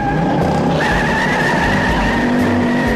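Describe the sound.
Car turning right while driving along a city route around the San Francisco Bay, a continuous engine and road rumble with a thin, sustained squealing tone running over it.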